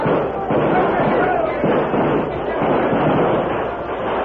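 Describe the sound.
Radio drama gunfire effect for a battle against attacking Cheyennes, with the Lone Ranger's guns blazing: dense, continuous crackling shots and sharp bangs that stay loud without a break.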